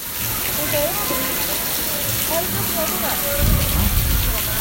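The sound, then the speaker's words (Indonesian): Steady hiss of rain falling outside in cold weather, an even wash of noise that continues throughout while people talk over it. “Ini tuh by the way di sini tuh lagi hujan. Lagi dingin gitu.”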